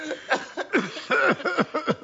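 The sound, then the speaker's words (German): Coughing from someone who has just choked on something: several short, harsh, throaty bursts in an uneven rhythm, each with a rough voiced edge, fairly loud and with no talk. “Und so einen komischen Husten hast du.”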